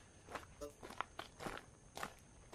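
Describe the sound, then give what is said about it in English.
Boot footsteps walking outdoors in a natural setting: several quiet, uneven crunching steps in a loose walking rhythm. No talk is heard. “You can hear my boot steps.”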